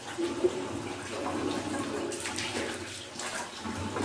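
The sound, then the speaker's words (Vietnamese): Water splashes and runs while a face is washed during Islamic ablution (wudu): a steady soft trickle with gentle splashes and a few brief drips, fairly quiet and continuous. “mình rửa hành lễ mình rửa xong rồi lấy nước này mình rửa mặt rửa này xong từ đây này cho tới hết chỗ này đấy rửa 3 lần á.”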